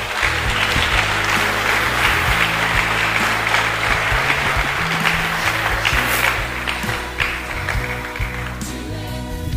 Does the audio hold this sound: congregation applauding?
yes